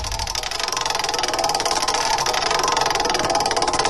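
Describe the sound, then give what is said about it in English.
Fast, even ticking or whirring of a name-picking wheel being spun, a continuous rattling texture that holds steady for the whole stretch with no talk. “All right, let's spin this wheel.”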